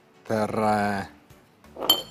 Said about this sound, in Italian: E metto un piatto.